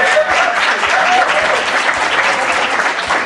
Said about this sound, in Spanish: Aquí es el momento de aplaudir.